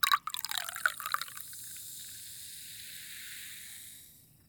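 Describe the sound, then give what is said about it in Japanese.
Liquid poured close to the left ear, opening with a few splashy drips and trickles that settle into a steady, airy hiss, which holds evenly before fading out near the end. “今度は私が左耳の近くで注いであげる。”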